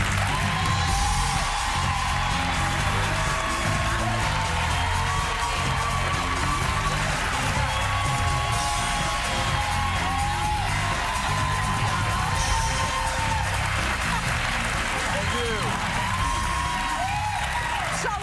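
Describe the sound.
A studio audience at a talk show cheers and applauds loudly as a guest walks on. Dense clapping blends with whoops and yells in an unbroken roar that lasts the whole stretch.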